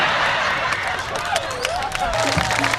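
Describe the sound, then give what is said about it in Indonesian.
Audience clapping mixed with crowd noise and voices, a dense, steady patter of hands with a voice rising and falling over it. “Tepuk tangan untuk wedus-wedus semua ini.”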